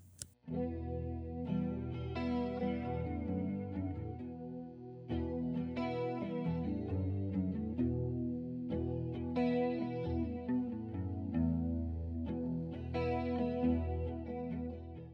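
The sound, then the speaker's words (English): Clean electric guitar run through a chorus effect, the verse setting chosen by footswitch on an effects unit, plays a steady run of shimmering chords and single notes for about fifteen seconds, moderately loud, with no talking. “I could get a nice clean sound with a little bit of chorus for the verses. Foot switch 2.”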